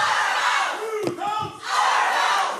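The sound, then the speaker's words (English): Protesters chanting at a city council meeting: loud massed shouting voices that dip briefly in the middle, then swell again to full strength. “And all of this gave way to chanting.”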